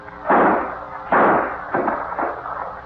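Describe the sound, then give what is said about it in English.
A gun held to a man's head fires with a few loud, booming shots, each a sharp blast that decays quickly, the later ones somewhat weaker. “Put that gun to his head and let him have it. But hold on to him. Then we'll put him over the cliff. Give it to him.”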